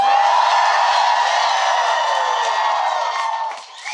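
A live audience at FlynnCon1 in San Diego, California, cheers and whoops in a loud, sustained wave that holds steady before dipping briefly near the end.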